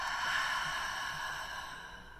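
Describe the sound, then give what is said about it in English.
A deep breath drawn in and let out slowly, heard as a long, soft, breathy rush with no talk. “Another one, deep breath in and out.”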